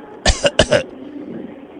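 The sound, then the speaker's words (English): A person coughs twice in quick succession. Each harsh, fairly loud burst breaks into a couple of pulses, with no speech around it. “I'm coughing in your direction”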